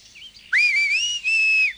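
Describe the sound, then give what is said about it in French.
A shrill whistle blown by a person gathering goats on a mountain. Faint short chirps lead into two loud, high, sustained blasts that rise slightly in pitch, with a brief break between them. “Alors qu'elle court autour du chalet, un coup de sifflet strident l'arrête.”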